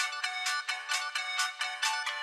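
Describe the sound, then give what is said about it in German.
Phone ringtone playing Jingle Bells, a bright electronic melody of quick, evenly spaced repeated notes that carries on steadily and alone. “Also wer seinen Klingelton auf Jingle Bell eingestellt hat, der ist es.”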